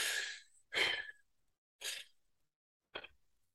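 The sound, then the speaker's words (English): Circular diaphragmatic breathing through the mouth: four short, airy bursts of breath, fairly soft, spaced about a second apart, with silence between them and no talking. “we do a certain kind of breathing. It's called diaphragmatic, circular diaphragmatic breathing. And it sounds like this”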